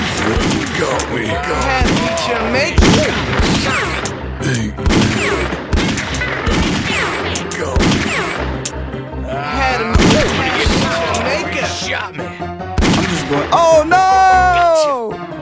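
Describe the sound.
Video game gunfire, with repeated sharp shots and heavy booms throughout, mixed with loud in-game voices talking over the shooting.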